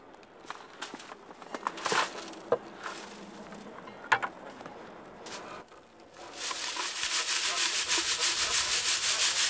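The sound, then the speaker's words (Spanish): Dirt is sifted by hand through a fine mesh screen at a screening station during an excavation searching for aircraft wreckage and personnel remains. Scattered scraping rubs come first, then a louder, steady, raspy grinding of soil through mesh. “La suciedad se elimina cuidadosamente y se llevan a una estación de cribado, donde se clasifica a mano a través de una malla fina.”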